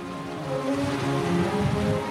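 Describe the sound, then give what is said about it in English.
Frigid sea water crashes against the concrete posts of a pier about 30 feet below, a steady, dense roar of churning surf with no clear breaks, moderately loud throughout. “Down below, about 30 feet or so, the frigid water crashes up against the pier's concrete posts.”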